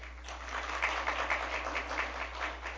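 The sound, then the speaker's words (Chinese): An audience claps to welcome a visiting pastor to a church service, a steady wash of many hands clapping at an even, moderate level. “很荣幸有陈明辉牧师到我们当中来证道，我们鼓掌欢迎他。”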